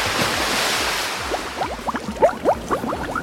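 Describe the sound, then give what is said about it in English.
Swimming pool water sloshing and lapping under a steady hiss, with many quick bubbly blips scattered through the second half, moderately loud. “What's through here? That's the swimming pool. Nothing like an early morning dip.”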